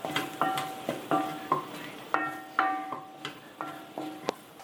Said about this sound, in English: I just added my garam masala.